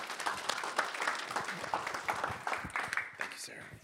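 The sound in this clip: Applause from an audience welcoming a speaker, a dense crackle of many hand claps that holds at a fairly even level throughout, ending on one sharper clap.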